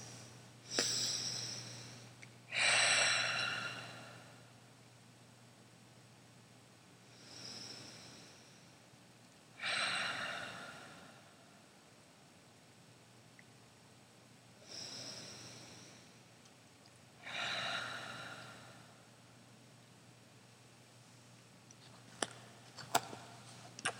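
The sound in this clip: Ujjayi breathing during a guided meditation: slow, soft, hushed breaths, each a gentle rasping rush, spaced several seconds apart with quiet gaps between. A low steady hum runs underneath, and a couple of faint clicks come near the end.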